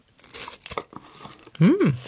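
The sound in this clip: Crunching of a raw onion layer dipped in a thick Canarian breakfast porridge: a few crisp, crackling bites, then a short hummed vocal sound.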